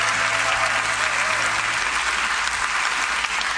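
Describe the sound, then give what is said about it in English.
Church audience applause welcoming two other church campuses joining the service by video: steady, dense clapping that holds at an even level throughout, with no speech over it. “So would you welcome our 6 Mile campus and our Lake Carroll campus today?”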